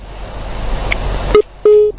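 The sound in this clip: A telephone call cuts off. The rushing hiss of the open line drops out suddenly, followed by a short electronic beep and then a longer, steady line tone.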